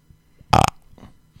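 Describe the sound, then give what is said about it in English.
One loud, throaty burp erupts abruptly and ends within a fraction of a second, set against near silence. “No, you don't have to edit it out. It's a burp. Burping happened.”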